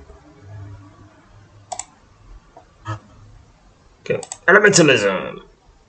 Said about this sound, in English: Alright, click the button.